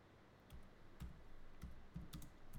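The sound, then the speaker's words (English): Faint typing on a computer keyboard as a place name is entered, a few soft keystroke clicks spaced unevenly, with no talk. “She wants me to type in Cohen Pub.”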